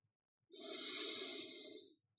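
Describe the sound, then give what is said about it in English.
A single deep breath taken alone, a smooth airy hiss that swells and holds for about a second and a half before fading into silence. “First, take a deep breath.”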